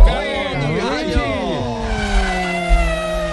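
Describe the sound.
A car engine roars loudly, its pitch sweeping up and down in quick revs before settling into a steadier high drone. A few low thumps run underneath.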